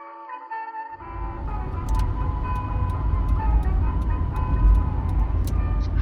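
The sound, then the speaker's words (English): A car driving down a highway gives a steady, loud low rumble of road and engine noise, with faint, regular ticking over the drone. “I'm driving down the highway as we speak”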